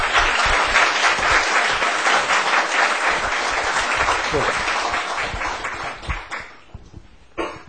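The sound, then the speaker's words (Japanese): Sustained applause from a church audience, dense steady clapping for about six seconds before thinning into a few scattered, louder individual claps at the end. “また拍手を持って皆さん”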